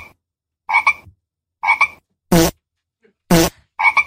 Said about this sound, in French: Vous devez bien compter et retenir ce chiffre. Que les crapauds. Hein. Que les crapauds parce qu'il y a d'autres sons indésirables.